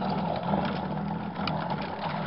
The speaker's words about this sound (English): Gotta mix it. Oh, that's a horrible machine to have in a bar. Some poor guy's liable to end up with shell shock.